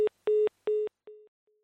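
Telephone line tone after a failed phone call: short, evenly spaced, mid-pitched electronic beeps. The last two are fainter and the final one is barely audible. No voices.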